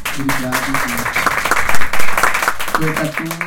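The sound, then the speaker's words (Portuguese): Audience applause welcoming a performer on stage at a live show: a dense wash of clapping that swells to its loudest in the middle, with voices speaking at the start and again near the end. “Vamos receber o nosso artista com muitos aplausos.”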